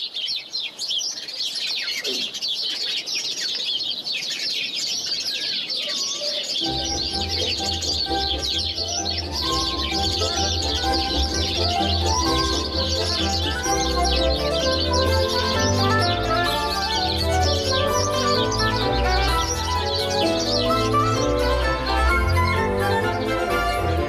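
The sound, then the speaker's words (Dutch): House sparrows twittering and chirping, a dense, continuous chatter of many overlapping high chirps that runs steadily through the whole recording. “Marcel Brouwer uit Culemborg krijgt juist van de kwetterende en chilpende mussen een lentegevoel”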